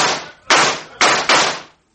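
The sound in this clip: Four sharp gunshot cracks fired at a stable, each with a quickly fading tail. They come in an uneven rhythm, with the last two close together before silence.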